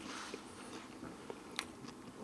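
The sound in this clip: Crisp biting and chewing of hot pizza during a card game, a series of soft crunches with one sharper crack midway, quiet and alone without voices.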